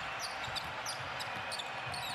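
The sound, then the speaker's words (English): Basketball being dribbled by Wanamaker on the court during a Warriors–Pistons NBA game, a run of quick bounces heard under steady crowd noise. “Wanamaker dribbles it middle.”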